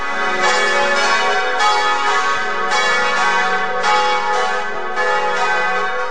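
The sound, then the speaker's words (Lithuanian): Church bells of a Benedictine convent in Kaunas's old town ring out, calling to prayer. Repeated strikes overlap into a rich, sustained wash of bright tones, loud and unbroken throughout. “kai tik išgirstate varpų skambesį kviečiantį”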